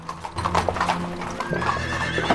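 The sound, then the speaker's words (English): Horse hooves clip-clop steadily as a horse arrives outside a physician's house, with many loud, even beats throughout and a whinny rising over them. “dismounts his still-moving horse outside the physician's house”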